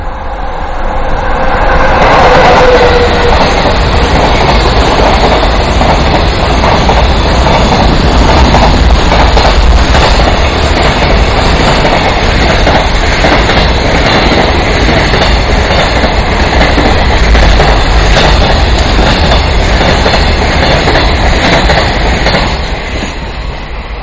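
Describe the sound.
A rapid-service train rolls in at a station platform with a loud, heavy rumble and steady clickety-clack of wheels over rail joints. The sound holds strong throughout, with no talk.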